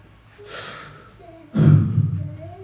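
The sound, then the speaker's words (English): A deep breath is drawn in by a man, a softer intake followed by a louder, fuller inhale that tails off slowly. “the first Adam taking his full deep breath”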